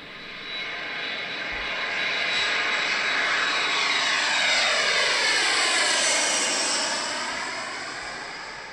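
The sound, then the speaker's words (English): An airplane landing, its engine roar swelling to a loud, steady rush and then easing off, with sweeping whining tones gliding through the noise. “Woo! That was some landing.”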